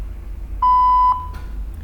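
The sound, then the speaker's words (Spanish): A single answering machine beep sounds as a clear, steady, mid-pitched tone lasting about half a second over a low background hum. “después del tono.”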